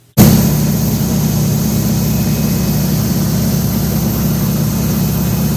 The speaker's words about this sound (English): I don't know how that DC-3 keeps flying. Those propellers are hardly moving. Just barely spinning through.